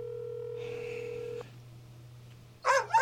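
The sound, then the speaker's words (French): Ringback tone of an unanswered telephone call heard from the caller's end. One steady, low, buzzing tone holds for about a second and a half, then a quiet gap, then a brief louder sound at the end. “Allez, Pompidou. Allez, Pompidou, décroche.”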